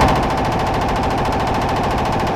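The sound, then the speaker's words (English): Gunfire at a gun range: a loud, continuous burst of rapid, evenly spaced shots that keeps up for the whole clip without a pause. “He posted a video of him at a gun range yesterday shooting off guns.”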